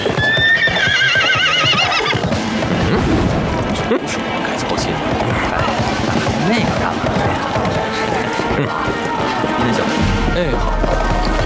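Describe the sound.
The horses of a mounted military unit ride off, with loud, continuous clip-clopping of many hooves throughout. A horse's high whinny sounds near the start.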